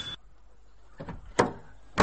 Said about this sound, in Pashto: دروازه په زوره ور وټکوه